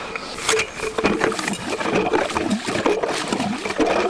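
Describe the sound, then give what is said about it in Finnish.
Water gurgles and bubbles up through a freshly drilled hole in lake ice about 40 cm thick as an ice auger is lifted out. The sound is continuous, uneven and fairly loud, with no clear voices. “Se on hieno tuo loppuääni, kun nostetaan se kaira sieltä reiästä, tulee se pulpu, pulpu, pulputus siihen päälle.”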